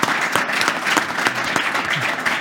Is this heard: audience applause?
yes